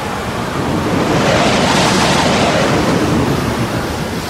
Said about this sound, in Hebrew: הנה, משה רבינו מטה את ידו על הים. מה הולך לקרות? רוח אדירה החלה לנשוב.